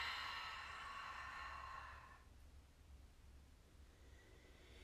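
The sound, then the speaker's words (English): A slow exhale out through the mouth during a paced breathing exercise: a soft, breathy hiss lasting about two seconds, then fading into faint background noise with no talking. “Hold it in for four. Exhale out your mouth.”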